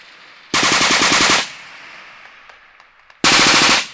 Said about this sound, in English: the live overhead fire from the machine guns mounted on the sides of the valley helps to add a realistic edge to the patrol.